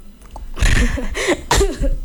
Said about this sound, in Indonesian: Sampai batuk.